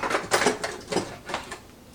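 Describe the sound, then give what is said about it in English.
A small handheld mixer whirs as it froths a drink made with MCT oil, running in a few short, buzzing bursts with brief dips between them. “All right, if you don't have one of these little mixers come in handy. Yeah, there we go. Now we got a little bit of froth.”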